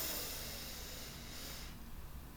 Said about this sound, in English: So take a big deep breath in through the nose